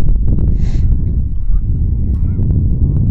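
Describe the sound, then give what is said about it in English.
Geese honk as they fly, with one clear nasal honk early and a few fainter calls, all over a heavy, continuous wind rumble. “Those geese are flying the wrong direction.”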